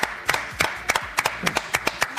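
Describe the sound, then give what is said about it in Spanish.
Hands clap in a steady rhythm on the set of a TV show, with many sharp, bright claps evenly spaced and a few softer ones between them. “Realmente, nada más tengo palabras de agradecimiento y este aplauso.”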